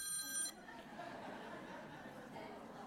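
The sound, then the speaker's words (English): A mobile phone rings late at night: a bright electronic ringtone sounds briefly at the start and cuts off after about half a second, leaving a steady low hiss of background noise. “who would leave their phone on at this time of night?”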